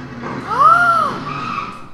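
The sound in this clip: Motorcycle tires skid with a single screech lasting about a second, its pitch rising then falling, over a low rumble of road noise. No distinct crash impact stands out.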